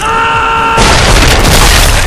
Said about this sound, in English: They didn't notice two of Detroit's grenades fall among them.